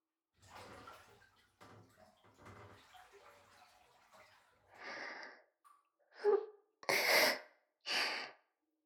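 Water splashes as someone gets into a hot bath. A stretch of soft, uneven sloshing gives way to a few louder, separate splashes near the end, with no voices.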